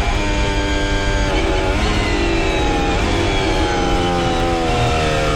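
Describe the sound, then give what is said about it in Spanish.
A racing car engine held at full throttle screams in a loud, continuous high-pitched howl, its dense harmonics shifting slightly in pitch as it drives on without a break. “Mira, ahí va fondo, fondo. Escuchen el motor.”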